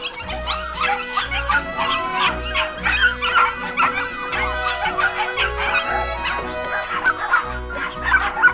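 Dogs bark at a squirrel: many sharp barks repeating in quick bursts, mixed with higher yips and whimpering sounds.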